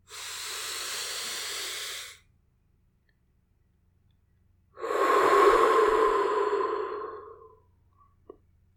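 A deep, slow breath drawn in through the nose and let out through the mouth: a long, steady breathy inhale, a pause of silence, then a longer, fuller airy exhale. No talking.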